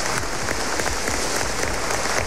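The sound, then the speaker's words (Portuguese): An audience at a Sunday church service applauding the fathers: dense, steady clapping that holds at an even, loud level throughout. “Uma grande salva de palmas para nossos pais.”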